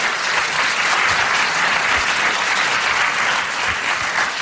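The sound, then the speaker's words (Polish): Audience applause at a talent competition event: dense, loud, continuous clapping from a large crowd, steady throughout without a break. “I tutaj też właśnie jest miejsce na oklaski.”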